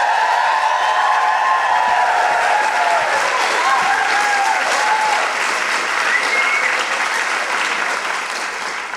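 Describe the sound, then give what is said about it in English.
A large audience applauding and woohooing as a performer is welcomed onto a stage, with loud, sustained clapping and rising and falling whoops over it. The applause tapers slightly toward the end. “Please welcome to the stage and make brilliant woohooing noises for the wonderful Cal Wilson.”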